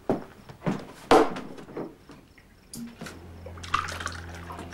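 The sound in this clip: A man pours himself another drink into a glass at home: a few knocks and clinks, then a trickling stream of liquid with small splashes.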